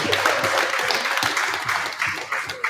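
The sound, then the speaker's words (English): An audience at a West Genesee baseball event at The Wildcat bursts into applause, a dense, steady wash of many hands clapping that holds for the whole stretch. “Clap it up. I like it.”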